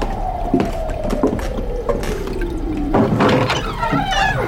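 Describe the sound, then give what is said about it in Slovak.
A toilet flushes into a bucket: steady loud rushing water with gurgling and a whining tone that slowly sinks in pitch, then stronger surges of splashing water toward the end. “Ešte aj toto. Splachovač v kýbli a pán v krčme.”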